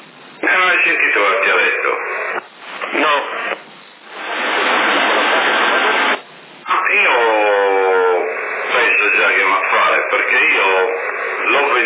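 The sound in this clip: A CB radio transmission test with an echo effect: a narrow, tinny voice over the radio, with a long burst of steady static hiss between the spoken passages.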